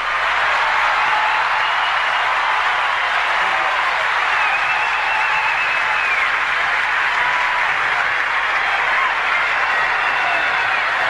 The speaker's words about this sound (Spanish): Fuerte el aplauso.